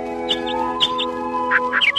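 Birds chirp their morning songs at a shore in the hazy early hours as anglers arrive. Short, bright, high chirps repeat in small clusters over a steady, layered humming tone.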